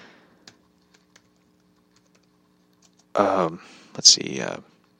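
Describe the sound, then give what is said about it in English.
A few faint, scattered key clicks from a computer keyboard as a search is typed in, followed by a person talking. “I'm just gonna type in Jerry Lawler bad jokes.”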